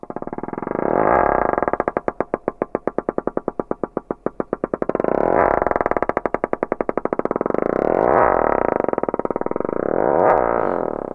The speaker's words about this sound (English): And here's the same sound slowed down to 1% of regular speed.